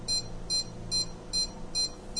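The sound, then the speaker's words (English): Pulsing electronic beeps from an SWR indicator keyed on a radio transmitter's carrier. Six evenly spaced, high-pitched beeps sound at a slow, steady rhythm over a faint low hum. “Now you can hear that pulsing beeping. I've just taken my finger off of the carrier. I'll put it back on.”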